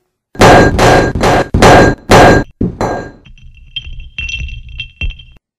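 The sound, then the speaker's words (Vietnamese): Objects are thrown and crash to the floor in a rapid run of many heavy, loud crashes and thuds, followed by lighter clattering and ringing metallic clinks as things settle. “Lại là một trận ném loạn. Tô Lâm Lâm mới vừa nhặt đồ đạc lên, lại tất cả đều rơi xuống mặt đất.”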